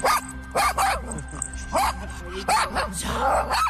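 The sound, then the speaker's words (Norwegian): A female dog gives several high, sharp yips and barks mixed with whimpering, heard under people talking. “Hvad hedder din hund?”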